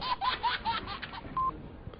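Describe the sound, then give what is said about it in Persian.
Telephone keypad beeps as a number is dialed to place a call: a few short, evenly spaced mid-pitched tones, then one slightly longer tone, over a muffled, softly rustling background. “پس من همین الان زنگ میزنم مونیک خانم”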